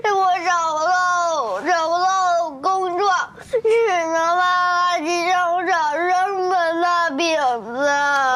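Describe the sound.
A child cries and wails in long, high-pitched, sobbing bursts, with brief catches of breath between the cries.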